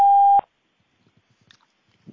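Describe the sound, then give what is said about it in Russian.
A voicemail beep tone on a phone line: one loud, steady, high-pitched beep lasting under half a second, then near silence with only faint scattered clicks. “Вы можете оставить для него голосовое сообщение после сигнала.”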